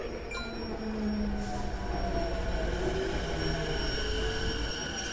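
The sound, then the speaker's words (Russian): A silver Shinkansen bullet train arrives at Tokyo station: a steady, loud rumble of wheels on rail runs throughout, with thin, high metallic squealing tones layered over it and no voices. “Ого, а это что за синкансен? Прибывает поезд.”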